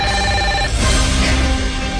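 A telephone rings for an incoming call, with loud, steady electronic tones sounding alone; the tone pattern shifts partway through the ring.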